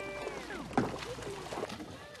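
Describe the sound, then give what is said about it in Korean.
A horse carrying a rider wades into water, sending up sloshing splashes with one sharper splash partway through, over a bed of churning water. “말을 타고 이렇게 물에 들어오는구나.”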